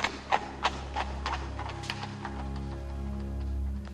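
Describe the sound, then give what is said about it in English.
Hooves of a horse pulling a carriage clop along a London street, crisp and rhythmic at first, then fading into a soft steady rumble of wheels. “A horse-drawn carriage passes a very large red brick house.”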